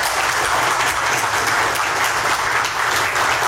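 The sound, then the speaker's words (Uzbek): Applause in a courtroom greeting a decision to release a detained man: loud, dense, continuous clapping from many people, steady throughout with no pauses. “Videodagi tasvirlarda Shuhrat Sadinovning sud zalidan ozod etilishi to'g'risidagi qaror qarsaklar bilan kutib olingani va sud binosi tashqarisida uni 100 dan ortiq odamlar qarsaklar bilan kutib olgani”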